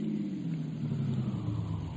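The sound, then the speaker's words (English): A car driving uptown, heard as a low, steady engine rumble with road noise that stays at an even level throughout, with no voices. “I drove him uptown.”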